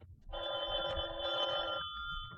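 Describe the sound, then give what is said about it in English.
A telephone bell rings once, a bright, steady trilling ring that lasts about a second and a half before cutting off, over a low rumbling background. “at 11:30, I was just about to turn in when the phone rang.”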